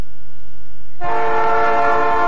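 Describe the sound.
A loud train horn blows as a steady, multi-toned chord that starts about a second in and holds to the end, sounding alone.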